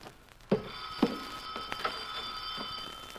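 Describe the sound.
A telephone ringing in an office: a steady, bright bell-like tone that holds from about halfway through the first second to the end, with a few sharp knocks near the start.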